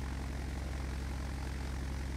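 Propeller aircraft taking off from runway 29, a steady low droning engine hum with a fine even pulse, fairly faint throughout, ending in a brief louder burst.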